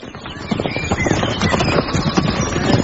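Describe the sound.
A very large horse clip-clops steadily under its rider. Many even hoof falls form a continuous rhythm throughout, fairly loud and unbroken.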